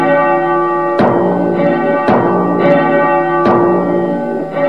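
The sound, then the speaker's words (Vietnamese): Temple bells ring out at a Shaolin monastery, with a few heavy strikes whose bright, sustained tones hang and overlap between blows. “các vị sư phụ phái Thiếu Lâm chuyên lo kéo chuông đánh trống, xin hãy giống chuông đánh trống lên cho.”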